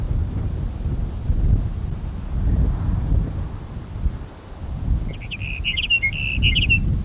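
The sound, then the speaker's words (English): Strong wind buffets the microphone with a steady, low roar and rolling gusts, and a bird chirps briefly near the end. “Bad wind.”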